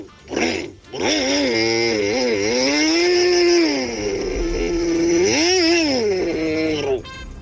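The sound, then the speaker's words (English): A person's voice imitates a chainsaw: a buzzy, engine-like drone that starts after a short lead-in, then revs up and down in pitch in a few surges before cutting off abruptly. “Chainsaw impersonations. I'm really impressed by these.”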